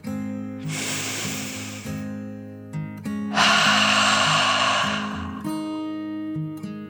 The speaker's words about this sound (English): Feeling peaceful, Kian took a deep dragon breath, in and out.